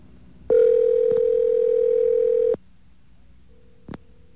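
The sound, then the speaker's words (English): A telephone call rings through to voicemail, marked by a loud, steady electronic tone lasting about two seconds. A short click, a quieter brief tone and another click follow. “he's still got voicemail picking up, so he must not be in the range”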